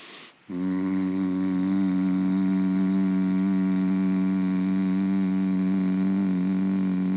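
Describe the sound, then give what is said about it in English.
A person hums one long, steady, low tone as a conscious-hum relaxation and healing exercise. It starts after a brief quiet moment and holds at an even pitch and loudness for about seven seconds, with no one talking. “do what we call a conscious hum, which is a hum that is basically on one tone and elongated”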